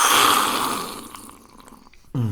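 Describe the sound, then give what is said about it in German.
Loud, airy slurping of tea drunk angrily, a hissing suck that gradually fades, followed at the end by a brief voice. “Ich trinke meinen Tee hier auf und bin froh. Das ist doch schon mal gut. Aber ich trinke ihn wütend, wie man hört.”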